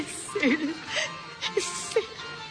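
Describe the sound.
A woman crying in a dramatic scene: a few short, high, wavering whimpers and sobs, soft and broken by breathy pauses.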